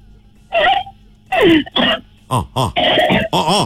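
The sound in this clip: A person coughs and clears their throat in several short, rasping bursts, some voiced and whimpering, with brief pauses between them.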